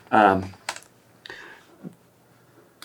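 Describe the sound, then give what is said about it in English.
Typing on a computer keyboard: a few short, sharp keystroke clicks follow a brief voice, then light tapping continues at an uneven pace, fairly quiet overall. “Just start typing it again.”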